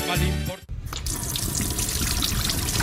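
Water runs from a tap into a sink as a steady, loud, hissing gush that continues evenly after a brief tonal sound cuts off at the start.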